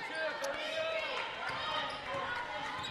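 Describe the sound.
Basketball dribbling during a girls basketball tournament championship game: soft, repeated bounces on the court, barely standing out beneath a steady wash of crowd noise and voices.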